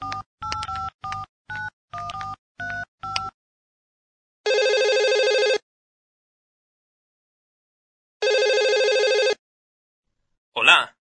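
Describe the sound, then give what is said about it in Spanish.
Calling back on a telephone: a quick series of keypad dialing beeps, then two long, steady ringback tones separated by a few seconds of silence. “Voy a llamar de vuelta a Joe como lo sugirió, para confirmar el pedido.”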